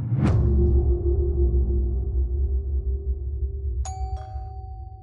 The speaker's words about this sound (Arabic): عندما دق جرس الباب. صوت الأجراس اللعين هذا يتردد في أرجاء البيت ذي الطابقين.